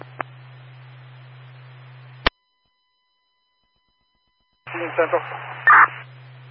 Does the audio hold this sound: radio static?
yes